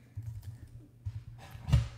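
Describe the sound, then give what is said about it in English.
Faint typing on a computer keyboard, light irregular key clicks tapping away quietly, with a slightly firmer keystroke near the end. “sorry, I can't type this morning.”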